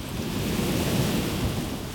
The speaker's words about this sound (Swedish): I miljontals år har havets vågor slagit mot klipporna.